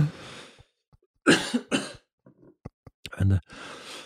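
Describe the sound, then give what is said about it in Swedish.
A person coughs mid-conversation: a few sharp, harsh bursts broken up by quiet breaths and small throat sounds, each cough short and moderately loud. “varför börjar jag hosta så här nu?”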